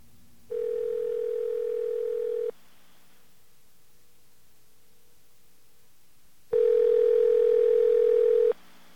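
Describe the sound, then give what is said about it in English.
A telephone dial tone sounds as two steady, even hums, each about two seconds long, separated by a quiet gap of several seconds. The second tone is slightly louder than the first. “Let's get a dial tone.”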